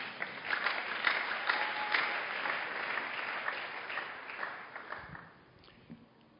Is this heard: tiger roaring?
no